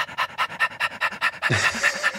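A dog pants right against a lavalier microphone in a fast, even rhythm of many quick, breathy puffs. Toward the end the breathing turns rougher and louder, with some low throaty noise.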